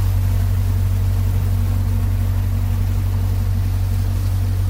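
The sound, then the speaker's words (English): A public-transit ferry's motor as it pushes away from the dock on the Vltava in Prague: a steady, loud, low engine drone that holds constant throughout. “So he's pushing the ferry away from the dock, and that's the motor.”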